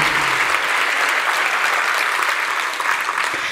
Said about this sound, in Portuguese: Esses merecem esta salva de palmas efusiva que vocês deram agora.